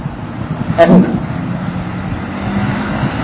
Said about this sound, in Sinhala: දැන් three wheel එකක් යනවා ඒකේ සද්දේ මට ඇහුණා.